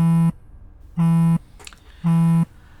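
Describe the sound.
A phone ringing for an incoming call from an unknown caller sounds as three evenly spaced, harsh, low buzzing tones. Each burst is short and holds a steady pitch, with quiet gaps between them and no talk.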